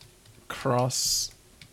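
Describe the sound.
Typing commands on a computer keyboard to play a text game, a brief burst of key clicks alongside a voice.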